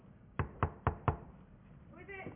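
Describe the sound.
Four sharp, evenly spaced knocks on a door ring out loud and crisp in quick succession, followed moments later by a brief voice.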